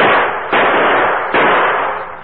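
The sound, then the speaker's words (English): Gunshots from a gun fired at a target at a camp: three loud, sharp reports in quick succession, each trailing off in a rough, decaying tail. “That's good shooting”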